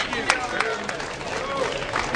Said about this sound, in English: Give her another round of applause.